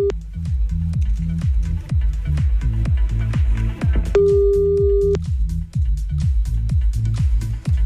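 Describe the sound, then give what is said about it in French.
A telephone call ringing out on a radio line, with a steady electronic tone held for about a second amid rapid, repeating low pulsing tones. “Allez, on y va, c'est parti, on appelle.”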